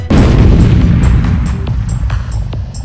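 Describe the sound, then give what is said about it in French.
A grenade explosion in a video game sets off one loud, deep boom, then a long low rumbling decay with a few faint clicks in the tail. “Attention, grenade! À terre!”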